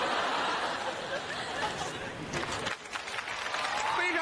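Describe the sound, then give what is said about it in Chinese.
Audience applause for two performers on stage, a dense, steady wash of clapping that runs the whole clip with talk over it. “热情的掌声、 哎、感谢。”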